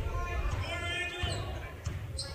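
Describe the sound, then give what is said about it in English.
A basketball dribbled on a court during a game, as the ball handler probes a zone defense from the top: a few dull, muffled bounces over steady background noise and murmuring voices. “Just dribbling up top on the right side, just trying to find a hole in the zone.”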